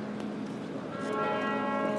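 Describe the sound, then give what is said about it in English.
Cathedral bells chiming noon, a sustained, resonant ringing with layered overtones that swells louder partway through, with no talk over it. “That's the noon chiming by St. Paul's Cathedral.”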